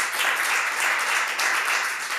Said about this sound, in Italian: vorrei fare un applauso per il grande Pino.